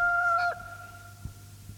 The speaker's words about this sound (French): Une lueur pâle parut dans l'horizon. Le chant du coq enroué monta d'une métairie.